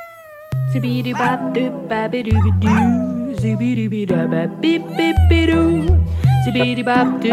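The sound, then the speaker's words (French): A female dog howls along with a singer in a song duet, wavering, drawn-out pitched howls intertwined with sung melody over musical accompaniment. “Elle se permet même un duo avec sa chienne Léone.”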